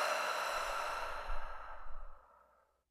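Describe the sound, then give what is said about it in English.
A single deep breath: one long, soft, breathy exhale that holds for about two seconds, then tapers away into silence. “Just taking a deep breath.”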